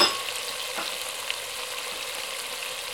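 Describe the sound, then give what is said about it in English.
Red wine vinegar and sugar sizzle in a hot pan while being stirred, a steady hiss with a louder burst at the start and a few scraping stirs. “Just gonna stir and cook that for a couple of minutes. Kind of let that develop into a bit of a sauce.”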